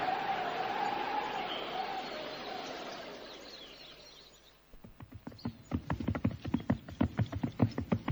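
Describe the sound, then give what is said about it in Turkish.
Hoofbeats of a horse carrying an approaching rider. A fading windy whoosh gives way midway to a steady run of sharp clip-clops that keeps an even rhythm and grows slightly louder. “İşte at üstünde biri bize doğru yaklaşıyor.”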